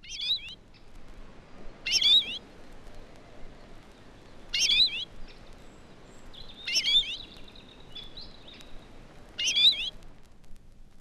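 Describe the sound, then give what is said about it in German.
An excited bird gives a three-syllable call note, repeated five times at irregular gaps. Each call is a short, high-pitched burst of chirps heard alone against a quiet background. “In der folgenden Aufnahme kommt die gesteigerte Erregung desselben Vogels in einem dreisilbigen Lockruf zum Ausdruck.”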